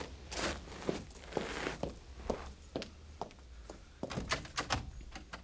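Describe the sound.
Rattling and thumping as someone tries a locked back door, a busy run of sharp knocks, clacks and handle jiggles that grows denser and louder toward the end.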